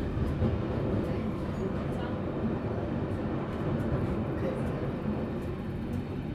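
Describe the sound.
Steady rumbling roar inside a moving train carriage, a dense, constant wash of low noise that holds at an even loudness throughout with no clear breaks.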